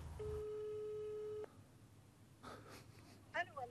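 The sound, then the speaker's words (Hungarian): A telephone call tone sounds after a number is dialed: one steady, even tone lasting a little over a second. After it, brief faint voices and breathy sounds follow. “Tárcsázom.”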